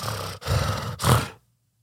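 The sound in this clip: A voice imitates a sleep apnea gasp for air with harsh, raspy, roar-like breaths in a few rough bursts that end abruptly in silence.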